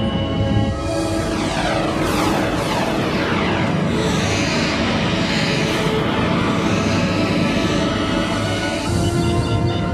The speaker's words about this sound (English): Initiate transit mode, 3-axis stabilization. Aye, sir. Engage thrusters.